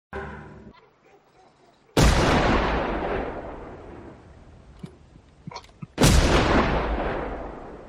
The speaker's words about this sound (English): Those are the gunshots. I didn't do the gunshots.